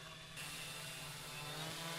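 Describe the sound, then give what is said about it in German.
A drone takes off and hovers, its propellers making a steady, buzzing whir with a droning tone that grows fuller and louder after a brief start, then holds evenly. “Also endlich ist sie abgehoben, unsere Drohne. Und völlig losgelöst von der Erde schwebt die Drohne völlig schwerelos. Allerdings nicht geräuschlos. Das ist schon ein ganz schön krasser Sound,”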